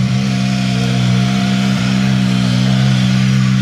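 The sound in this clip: A Ford Puma rally car engine, in very good condition with no problems, drones loudly and steadily throughout, holding a low, even pitch with a continuous buzzing rumble and no voices.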